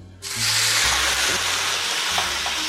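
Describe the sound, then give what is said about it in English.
Rum poured into a hot skillet to flambé sends up a loud, steady sizzling hiss. It starts abruptly after a brief quiet moment and roars on unbroken to the end, with a low hum underneath. “I'm gonna pour my rum to the furthest end of the skillet. Now this is gonna happen very, very quickly, so watch them eyebrows, get a step back, and get ready.”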